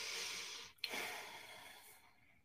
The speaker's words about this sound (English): This can be done with determined concern, not bitterness. Y'all want to breathe again?